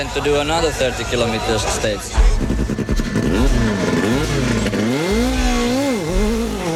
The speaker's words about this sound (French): Lorsque le départ de la spéciale est donné, la Lancia Delta blanche, avec ses bandes rouges et bleues sur le capot, s'arrache du sol à une vitesse ahurissante.